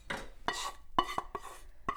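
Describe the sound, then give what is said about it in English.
Dal being added to a pan of tempering: several clinks and knocks of a utensil against the pan, with scraping and stirring between them and no talking. “and then you add a bit of the dal to the pan to make sure you get all of the tempering out.”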